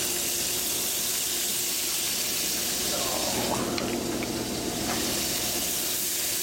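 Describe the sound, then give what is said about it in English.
Chopped onions and garlic sauté in hot oil with a continuous sizzling hiss. The frying noise stays even and moderately loud from start to finish. “A little handful of chopped onions. About a teaspoon of chopped garlic. We're just going to saute it till it starts to stick a little bit.”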